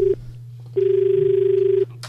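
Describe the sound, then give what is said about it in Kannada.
Telephone tones of a call coming in on the line: a short beep, then a longer steady tone, over a constant low hum. “ಈಗ ಇನ್ನೊಂದು ಕರೆ ಇದೆ.”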